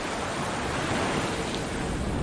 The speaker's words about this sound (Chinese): 在潮之洲，潮水往复。